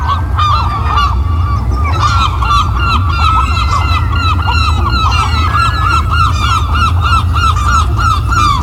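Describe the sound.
Northern gannets calling in a breeding colony on the Sept-Îles off Brittany: a loud, continuous chorus of harsh, overlapping honking and cackling calls from many birds, with no pauses throughout.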